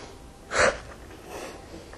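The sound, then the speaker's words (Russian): A deep inhale and forceful exhale during a breathing exercise come as one short, loud, sharp burst of breath followed by a fainter, longer airy breath, with no talk. “Сделайте один достаточно глубокий вдох и активный выдох.”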